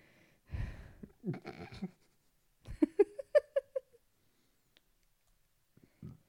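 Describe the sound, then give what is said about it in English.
Heavy, labored breathing from someone badly out of breath, in two clusters of short, wheezy, partly voiced puffs and gasps. Near silence follows, with a faint breath at the very end. “Like, I feel so out of breath. It's ridiculous. So listen to me breathe and enjoy that.”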